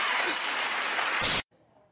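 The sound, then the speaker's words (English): An audience claps in a short, dense burst that swells briefly before cutting off abruptly into near silence. “Clap if you have anxiety.”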